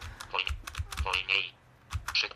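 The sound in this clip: Computer keyboard keys pressed to move left and right through an on-screen menu: a run of sharp plastic clicks, some in quick pairs, spaced unevenly, with a voice talking faintly at times.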